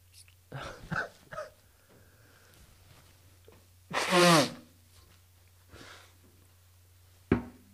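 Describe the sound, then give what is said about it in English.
A harsh blow out through the nose after a squirt of nasal spray. A few faint short puffs come early, then one loud, breathy nasal blast of about half a second, and a brief sharp sound near the end. “So don't sniff up. Just spray, and then blow out immediately.”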